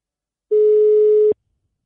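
A telephone tone sounds while a call is being placed: one loud, steady, pure beep at a single pitch lasting under a second, alone, with silence before and after.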